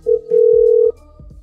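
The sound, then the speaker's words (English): A telephone tone sounds as a call is placed: a short beep, then a long, steady, mid-pitched tone lasting about half a second, followed by a few faint low clicks. “Call her back and you talk to her.”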